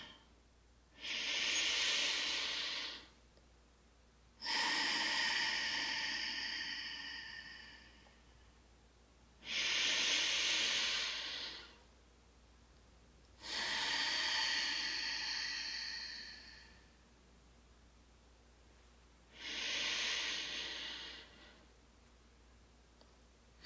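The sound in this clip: Slow, airy breathing during meditation: five long breaths at an even pace, each a soft rush of air separated by quiet pauses, with no talk.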